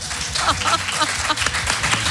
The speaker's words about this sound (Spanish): ¡Ah! ¡No os cortéis! ¡Aplaudid!